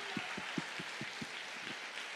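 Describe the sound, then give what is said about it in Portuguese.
Church audience clapping along in evenly spaced, rhythmic beats over a steady wash of crowd noise. “Quem pode aplaudir ao Senhor por isso? A minha confiança. Aplauda mais forte. Aplauda ao Senhor, a Jesus.”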